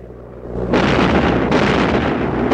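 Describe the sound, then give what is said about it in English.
Anti-aircraft guns firing at a plane, heard as loud, heavy explosive bursts that begin after a quieter rumble and merge into a dense, continuous roar, with fresh blasts breaking in partway through and near the end. “They start firing at the plane, many of the shots only missing it by a narrow margin.”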